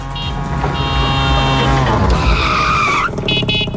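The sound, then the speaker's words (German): A radio jingle sound effect of a tuk-tuk driving past: a loud engine-like drone with stacked tones, a screeching skid-like swoop in the middle and bright tonal bursts near the end, with no voices. “So klingt das Tuk-Tuk und das ist dann für euch das Startsignal, hier durchzuklingeln.”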